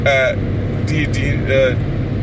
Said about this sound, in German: Guck mal, wir dürfen hier 120 fahren, ich fahre 124 mit Tempomat.